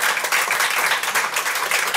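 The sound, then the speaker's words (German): Audience applause greets a panel of expert speakers on stage: dense, even clapping that holds at a steady level through the whole stretch, with no voices standing out. “Und jetzt bitte ich um einen Applaus, weil es ist wirklich toll, was heute hier auf der Bühne an Expertinnen ist.”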